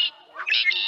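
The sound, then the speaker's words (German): Brief blackbird song from a bird-voice clock: a clear, high, fluting whistle that starts with a short note and moves into a warbling phrase. “Das hier? Das ist eine Amsel. Die müsstest du aber kennen. Die flitzt ja hier durch alle Gärten und kann ein ganzes Konzert allein veranstalten.”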